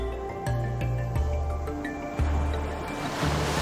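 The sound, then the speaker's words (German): Ocean waves rolling onto a white sand beach make a steady, broad rushing wash, with soft swells and low thuds recurring every second or so, heard alone with no voices. “Du hörst die Wellen im Hintergrund rauschen.”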